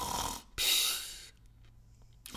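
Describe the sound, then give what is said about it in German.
A person imitating snoring, a couple of breathy, rasping bursts close together, then a faint lull with little other sound. “Der schnarcht manchmal. Ja, der sitzt in dir drin und schnarcht.”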